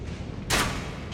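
Crossbow bolt shot in a video game, a single sharp burst of noise that rises suddenly and then eases off over a steady low background hum.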